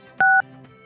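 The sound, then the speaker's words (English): A single telephone keypad tone sounds: one short, steady dual-pitched beep, loud and alone over a faint background hum. “It, stop it, stop dialing.”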